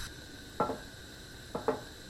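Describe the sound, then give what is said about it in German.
A cooking pot is set on a stovetop, giving a few faint clattering knocks of metal on the hob against a quiet background. “Zuerst mache ich den Herd an. Dann brauche ich einen Kochtopf.”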